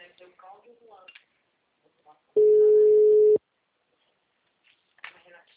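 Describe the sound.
A telephone busy tone after a dropped call: one loud, steady, even beep of about a second, with people talking quietly before and after it.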